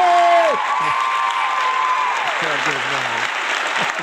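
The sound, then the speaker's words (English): Audience applause welcoming a guest to a talk on hacking and social engineering: a dense, steady wash of clapping with some cheering that holds for several seconds and eases slightly after the first half-second. “Ladies and gentlemen, please put your hands together and welcome Chris”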